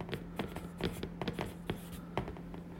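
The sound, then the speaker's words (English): A pen scratches on paper as a single word is written by hand. Quick, irregular strokes come with brief pauses, fairly faint, and no voices. “I'm going to write unbiased.”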